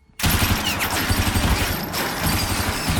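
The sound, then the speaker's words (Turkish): Machine-gun fire erupts abruptly as a dense, rapid rattle of shots blurring into a loud, unbroken roar that holds steady to the end. “Duyduğum makineli tüfek sesi mi Smith?”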